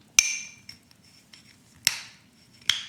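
A metal bottle opener clinks against a glass bottle of India Pale Ale that the standard opener doesn't fit, giving three bright, ringing strikes with a few fainter ticks between them and no talk.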